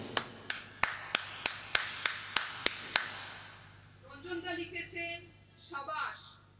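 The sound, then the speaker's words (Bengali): One person clapping hands alone, a steady run of about ten evenly spaced, crisp single claps, followed by a voice speaking once the clapping stops. “আমি এখানে তো আর কেউ নেই, আমি একা আছি, রঞ্জনদার জন্য এই গানটার জন্য আমি একটা হাততালি দিতে চাই।”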